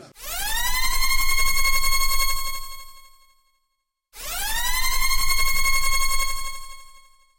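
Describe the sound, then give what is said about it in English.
A spoiler klaxon siren sound effect blares twice, each long blast catching its pitch briefly at the start, holding loud and bright, then fading out, with a short silence between the two. “Sound the spoiler klaxon!”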